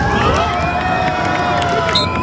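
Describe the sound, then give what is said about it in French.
Crowd cheering and shouting at a French national football team training session near Boston: loud, continuous cheering with high, sustained calls cutting through. “L'équipe de France a ensuite regagné les vestiaires devant un public conquis”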